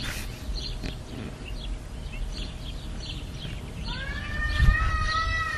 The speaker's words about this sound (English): it's really nice out here in Southern California. We have birds going off